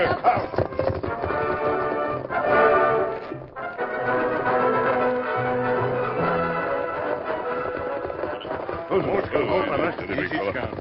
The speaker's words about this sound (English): Leaving Bronco tied securely, the Lone Ranger and Tonto, with Christine Dawson, galloped into town.